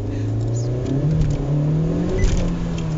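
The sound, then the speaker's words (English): A car in comfort mode accelerates hard, its engine whirring and rising in pitch in steps while the wheels spin, a steady loud drone with no talk. “so when you really try and accelerate and utilise its sports facilities, it just wheel spins.”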